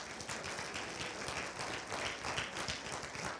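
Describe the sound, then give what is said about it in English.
Audience applause welcoming a guest up onto a stage, a dense, steady wash of clapping that holds at an even level throughout. “would you guys put your hands together and welcome my friend Brad Duderstedt as he comes on up here?”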